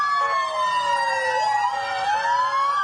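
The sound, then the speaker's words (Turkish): Ambulance siren in Nablus, on a vehicle carrying a seriously ill patient, sounds as a loud, continuous wail. The tone slides down, then climbs again, with no voices over it. “Nablus'ta ağır hasta Filistinliyi taşıyan bir ambulans işgalci İsraillerin tacizine uğradı.”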